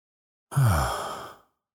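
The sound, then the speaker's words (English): One long, deep breath out through a relaxed sigh during a guided breathing meditation, soft and airy, swelling quickly and then tapering away over about a second. “take a deep breath in through your nose. Calm, deep breath into your belly. And as you breathe out”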